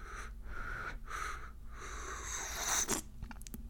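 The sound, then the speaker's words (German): A noisy, breathy slurp of freshly made hot tea sipped from a cup, a hissing draw of air and liquid that swells to its loudest near the end, followed by a few soft clicks. “was spricht dagegen, dass ich mir jetzt einfach meine Tasse Tee nehme, die ich mir gerade gemacht habe, und einfach mal richtig genüsslich und richtig unhöflich einen Schluck trinke?”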